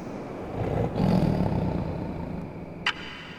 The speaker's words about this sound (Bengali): শুরু হলো কালকের মতোই নদীর ওপারে আবার সেই বাঘের ডাক